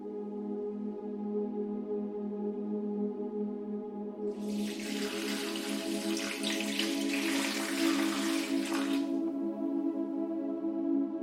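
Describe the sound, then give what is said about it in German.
Water trickles and splashes softly from a tilted watering can for about five seconds in the middle, over a steady, quiet tonal background that runs throughout. “Immer wieder neigst du die Kanne, hörst das leise Plätschern, siehst das Licht auf den fallenden Tropfen glitzern.”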